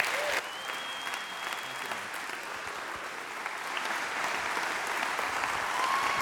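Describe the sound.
Steady applause from a church audience at Grace Chapel greeting a guest speaker, a dense, even patter of many hands that holds at one level for the whole stretch without letting up.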